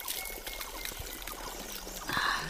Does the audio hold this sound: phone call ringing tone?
no